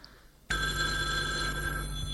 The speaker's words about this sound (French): Le téléphone a sonné. Il décroche.